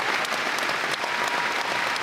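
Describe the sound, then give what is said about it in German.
A standing ovation in a concert hall after a concert performance of the musical Chess by the Danish Philharmonic in Lübeck: thick, continuous applause from a large audience, loud and even throughout, with no pause. “Und vor ihm ein Saal, der steht und jubelt.”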